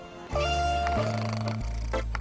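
A cat's meow run through an autotune plugin so it sings, turned into a few held, even notes that step between pitches, loud and alone with no talk.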